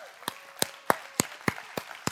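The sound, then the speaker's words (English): A church audience clapping: seven sharp claps at a steady, quick, even pace. “Give him a big clap offering.”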